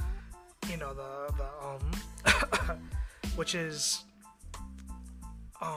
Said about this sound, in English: I lost my train of thought by coughing